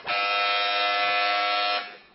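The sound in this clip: A quiz show buzzer pressed by a child contestant: one loud, harsh, steady electronic buzz held for nearly two seconds before cutting off and fading.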